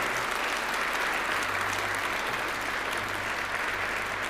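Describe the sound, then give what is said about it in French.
A church audience bursts into loud, continuous clapping, a dense and even wash of applause that holds steady throughout without pause. “Alors, acclamons-le de toute votre force.”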